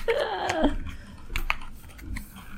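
Shuffling and cutting a deck of trivia board game cards: soft papery riffles and clicks, with a brief squeaky tone near the start and scattered taps afterward.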